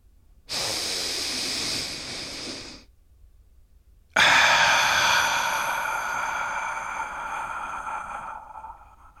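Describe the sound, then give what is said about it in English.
A deep breath: a steady, airy inhale of about two seconds, a brief silence, then a longer breathy exhale that slowly fades, with no talk. “Let's take a deep breath.”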